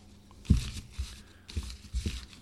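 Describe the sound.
Paper name slips are shuffled in a hat for a giveaway drawing, producing a few short, soft crinkling and rustling bursts with quiet gaps between them; no talking.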